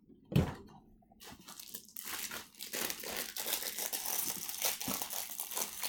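Opening a taped package with a box inside: one sharp thud near the start, a brief lull, then sustained crackly crinkling and tearing of packaging that keeps going to the end.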